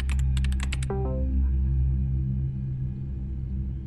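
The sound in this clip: Someone types on a computer keyboard while chatting online: a quick run of crisp keystrokes, then a short electronic chime over a steady low hum.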